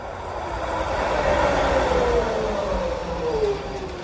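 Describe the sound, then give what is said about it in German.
A tram (streetcar) runs along a city line in Vitebsk, a steady loud rumble with a faint metallic whine that slides lower in pitch as it rolls on, no voices. “Ich liebe es einfach, unterwegs zu sein. Unterwegs mit der Straßenbahn.”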